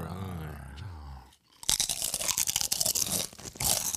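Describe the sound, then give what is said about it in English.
Loud crunching of potato chips: dense, crackly bursts of chewing run for more than two seconds, after a short low voiced stretch at the start. “There's chips. Get a crunch going.”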